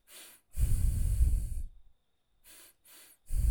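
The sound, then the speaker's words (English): Breathing in and out through the nose, hissy nasal airflow made of one long, loud breath followed by a few shorter, softer ones separated by brief silences. “I'll be doing the breath just through my nose”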